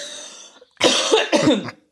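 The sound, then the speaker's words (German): Coughing from someone choking on coffee: two harsh, loud bursts in quick succession, each with a raspy tail, after a fainter breathy throat sound. “ich trinke gerade halt Kaffee nebenbei und verschluck mich die ganze Zeit”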